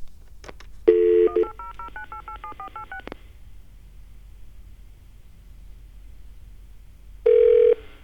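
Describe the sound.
Telephone keypad dialing tones while calling a toll-free 1-800 number: a brief steady tone, then a rapid run of short electronic dual-pitch beeps in quick succession, followed later by another steady tone.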